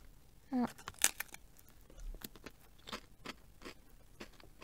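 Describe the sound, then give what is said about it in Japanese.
Crunching of slightly thick, lightly salted potato chips made from 100% potato as one is bitten and chewed: a few sharp, crisp crunches, then softer irregular chewing, all fairly quiet. “原のじゃがいも100%ポテトチップス薄塩味。これはもう間違いなく、絶対美味しいでしょう。うはい、開きました。じゃあちょっと一つ食べてみますね。”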